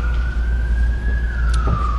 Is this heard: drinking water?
no